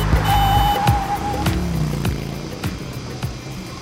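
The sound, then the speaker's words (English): Auto rickshaw driving and bumping along: a steady buzzing engine drone with a few sharp knocks and rattles over it, fairly loud throughout. “Bumping around in an auto rickshaw. Whoa, oh, oh. Yeah, an auto rickshaw.”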